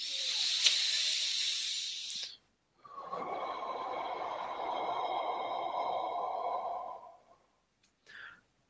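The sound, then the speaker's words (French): A person blowing out a deep breath: a long, steady, breathy hiss that lasts several seconds, after an earlier rush of breath. A faint short puff follows at the very end. No one speaks. “On souffle un bon coup.”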